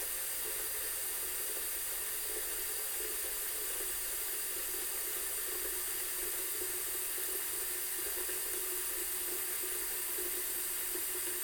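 Water pours from a tap into a container in a continuous, even rush and hiss that holds steady throughout, with no talking.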